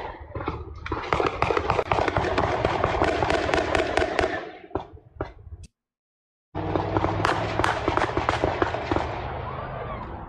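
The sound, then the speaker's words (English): AK-47 rifle gunfire rattles out during a reported mass shooting: dense volleys of many sharp, rapid cracks with irregular rhythm. A brief cut to silence breaks the firing midway, and then another long stretch of rapid shots follows. “AK-47 fire. You can hear that stuff. Let's go down to another one. Here's another one, another angle. It sounds like an AK.”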